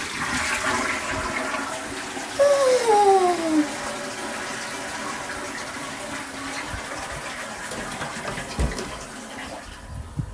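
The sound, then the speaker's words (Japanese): A toilet flushes with a steady rushing roar of water through the whole clip, and a brief falling whistling tone rises out of the rush early on before fading back into the flow. “うんちくん、バイ、流します”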